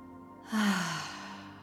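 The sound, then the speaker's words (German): A single forceful exhale: a breathy rush that starts abruptly and fades over about a second, carrying a faint voiced tone that falls in pitch. “Und alles Alte, alles Schwere, alle Dunkelheit über die Atmung jetzt ausschnaufen.”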